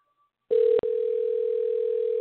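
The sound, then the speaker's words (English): A telephone busy signal sounds on a live radio call, a loud, steady mid-pitched tone that begins abruptly, breaks once briefly, then holds continuously. “call was not answered. Let's try this again. Fucking busy signal on live radio.”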